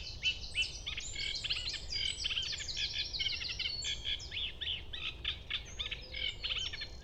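Minutes before sunrise, a bird starts its dawn song: a rapid, varied run of high chirps and trills that changes phrase after phrase, heard over a soft, steady low background noise.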